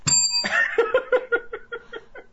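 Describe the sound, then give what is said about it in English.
A bell rings with one bright opening strike, followed by a fading run of quick, evenly spaced dings, heard alone. “I could find my bell, but I can't find the horn anywhere.”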